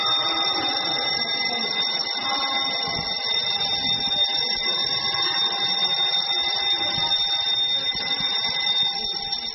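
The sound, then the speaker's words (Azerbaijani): A school bell in Ganja calling children to the next lesson: a harsh, steady electric ringing buzz that holds at an even loudness for the whole stretch, with no pauses. “Uşaqları növbəti dərsə çağıran məktəb zəngini həm də təhsilin həyəcan zəngi kimi də qəbul etmək olar.”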